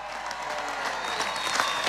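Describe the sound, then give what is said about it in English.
Crowd applause at a hometown welcome stage event in Ballina for Sam Callanan, a steady, dense patter of many hands that swells slightly toward the end, with no speech over it. “give a huge round of applause”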